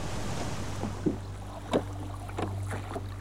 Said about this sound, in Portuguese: começou a mover a embarcação pelo mar usando um remo de madeira que segurava.